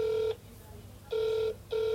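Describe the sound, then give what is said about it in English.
A telephone ringback tone sounds while a call is placed to a city leisure and cultural services department; a steady mid-pitched tone comes in three even bursts separated by short gaps. “I've tried calling the Leisure and Cultural Services Department several times,”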